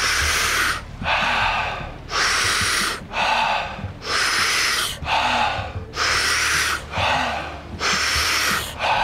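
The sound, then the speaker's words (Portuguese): A person breathing in and out during a guided breathing exercise: many slow, airy breaths in a steady rhythm, each a loud hissing rush separated by brief pauses, with no talk. “voltamos a respirar em 3, 2, 1, inspira. Expira e recomeça.”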